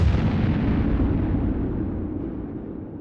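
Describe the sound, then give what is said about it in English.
A thunderous blast from an energy beam striking a bubble shield, with a concussion likened to a battleship gun and a sonic boom. A dense, rumbling roar holds steady, then slowly fades across three seconds, with no voices. “the beam burst straight towards the doctor, striking his bubble with a blinding flash and a sonic boom, sending debris tumbling in a spherical shockwave.”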